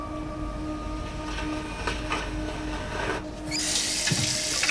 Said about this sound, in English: Brody going into his bathroom and turning on the tap